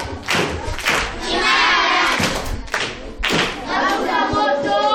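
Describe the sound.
Applause and clapping greet a pupil at a primary school proverb quiz after a correct answer. The clapping is a steady, dense patter from many hands, with a few brief dips, and it continues throughout with no single voice standing out.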